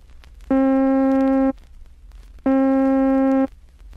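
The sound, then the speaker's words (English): A middle C tone with rapid growth and rapid decay sounds twice, each a steady, harmonically rich note about a second long that starts and stops abruptly, separated by a short silence. “When growth and decay are both rapid, it sounds like this.”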